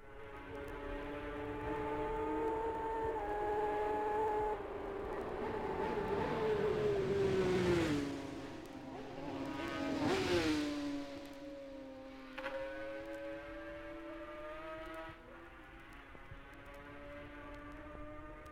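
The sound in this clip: Racing motorcycles on the road course speed past at Schoolhouse Corner in Ramsey, their high, whining engine notes rising and then dropping in pitch as the machines go by. The engines then settle into a steady drone, faint throughout.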